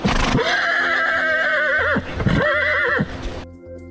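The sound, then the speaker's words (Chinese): Lead horse of a pack train in a narrow river valley letting out a sharp, loud neigh: a long, high, quavering whinny with a warbling drop near its end, then a shorter second burst that cuts off, over a steady low rumble. “突然，头马猛地发出一声尖锐的嘶鸣”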